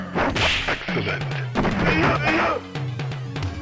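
Punches landing in a Mortal Kombat fight involving Scorpion, a rapid run of loud whooshing swipes and hard thudding hits.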